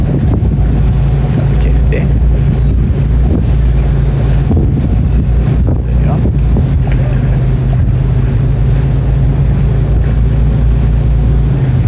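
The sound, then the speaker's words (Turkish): Boat engine rumbles beneath heavy, buffeting wind noise as the craft nears the Aşiyan shore, a loud, steady low drone with water and wind rushing throughout. “Şu an itibariyle artık Aşiyan kıyılarına ulaşmak üzereyiz. Tam yarım saatte yanaşmış olacağımızı varsayıyorum. Evet, motor gazı kesti.”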